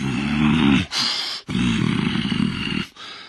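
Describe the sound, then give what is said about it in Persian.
A voice imitates an angry demon (div) roaring in a told story: a few deep, rasping growl-roars in a row, loud and throaty, separated by brief breaks. “دیو دوباره عصبانی شد و غرش کنان گفت:”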